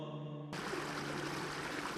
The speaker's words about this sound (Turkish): Su sesi, dünyanın ortak sesi.